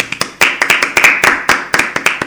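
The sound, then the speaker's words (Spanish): Hands clapping in applause: a steady run of many sharp, bright claps at a brisk, fairly even pace, loud and alone with no voices. “Yo desde aquí un gran aplauso tanto a Boningwood como al resto de los componentes del equipo que han realizado el videojuego.”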